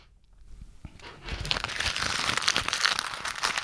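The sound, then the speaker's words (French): Crumpling of a laminated customs form being balled up by hand: a quiet start, then dense, continuous crinkling and crackling that grows loud and stays busy to the end. “Ça, c'est la feuille des douanes, ça. OK? Je peux pas déchirer parce qu'elle est plastifiée. Je peux pas parler trop fort parce que mon micro est à maximum. Et là, elle est en boule.”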